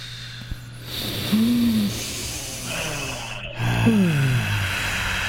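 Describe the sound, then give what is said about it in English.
A deep breath drawn in through the nose, then a big, long exhale during a guided group breathing exercise. The airy rush of breath is moderately loud, with no talk. “all the way in through the nose. Big exhale, super nice.”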